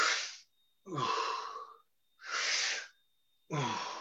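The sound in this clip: Deep breaths drawn in and let out during a guided breathing exercise: four loud, airy rushes of breath separated by short silent pauses, with no speech.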